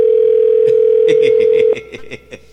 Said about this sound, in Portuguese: Peraí, deixa eu ligar de novo aqui, peraí.